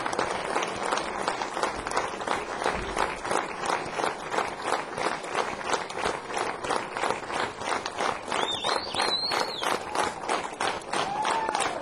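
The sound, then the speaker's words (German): Audience applause: many hands clapping in a fast, fairly rhythmic patter throughout, with brief whistles partway through. “Bitte mal einen Applaus.”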